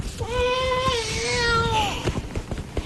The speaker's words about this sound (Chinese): 宝贝别哭啊，让奶奶抱抱。别哭啊